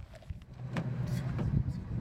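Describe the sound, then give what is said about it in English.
A car drives down a desert road, giving a quiet, steady low rumble with faint shifting noise and occasional soft knocks. “We're going to keep driving down the road, right?”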